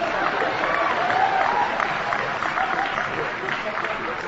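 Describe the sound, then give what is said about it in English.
Audience applause during a recorded speech, a continuous wash of clapping running through the whole clip with a voice speaking over it. “And people are just laughing throughout all of this. And then people start applauding.”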